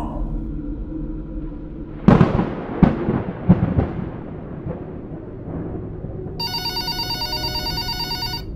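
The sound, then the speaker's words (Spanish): House telephone bell ringing in the night silence, a rapid, bright trilling ring for about two seconds at the end, after a few sharp thuds and knocks over a low hum. “el teléfono de la casa comenzó a sonar. El horrible timbre cortaba el silencio de la noche.”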